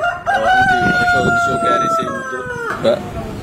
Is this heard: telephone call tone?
no